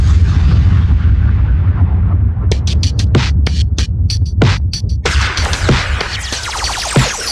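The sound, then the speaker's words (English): Explosion and gunfire-style sound effects in a dancehall DJ intro: a rumbling wash gives way to many sharp, rapid blasts over a low, steady bass hum. “Blazing, blazing the explosives.”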